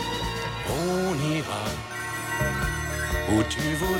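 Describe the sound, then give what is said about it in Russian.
A mobile phone rings for a son in a film scene, a loud electronic ringtone of bright, repeated melodic notes that carries on throughout. “У сына звонит телефон.”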